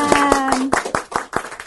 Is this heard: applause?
yes